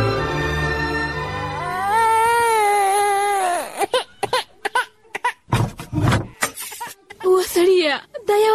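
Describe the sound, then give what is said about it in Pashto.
A sick infant who has not slept for nights and will not feed cries in a drama scene: a long, wavering, high wail, then broken sobbing bursts mixed with adult talk. “ماشوم ناروغ دی، دای څومره شپه ده چې خوب نه ده کړی او د شیدو څکه نه کوي. څنګه ناروغ دی بابا؟ ماشوم خو هسې هم ژاړي.”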